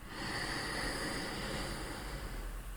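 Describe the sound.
A slow, drawn-out inhalation during a breathing exercise, a faint airy hiss that starts softly and then holds steady for nearly the whole clip.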